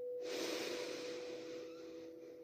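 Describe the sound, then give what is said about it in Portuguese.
A slow, steady exhale of breath makes a long, soft, breathy rush of about two seconds that gradually eases off. It is heard alone over a faint, constant low hum. “e soltando o ar”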